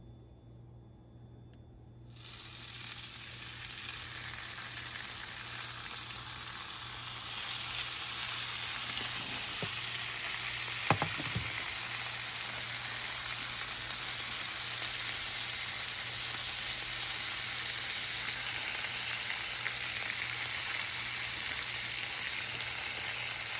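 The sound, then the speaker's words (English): Bacon frying in a pan starts with a sudden burst of sizzle, grows louder a few seconds later, then holds as a steady dense crackling hiss with a brief clatter near the middle. “Put that off to the side for a moment and throw on the bacon.”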